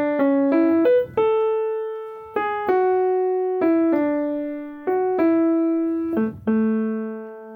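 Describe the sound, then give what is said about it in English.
Main theme melody of a video game soundtrack, played as a clean tonal tune with rich harmonics. About a dozen sustained notes step up and down between pitches in short phrases, alone without talk. “There's a melody to that whole game that sounds like this, if I could play it real quick.”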